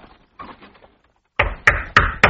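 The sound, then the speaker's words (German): Four firm, evenly spaced knocks on the door of a house, struck by a royal palace guard acting as messenger. The knocks land sharp and loud after a quieter opening stretch of faint low sounds. “Jetzt klopft er an die Tür vom Mardochais Haus.”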